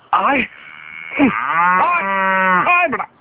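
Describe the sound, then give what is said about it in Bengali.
A cow moos alone. A short, low call comes first, then a long, drawn-out, harmonic-rich moo with brief dips, loud throughout. “কিরে গরু বাড়ি যায় না কে?”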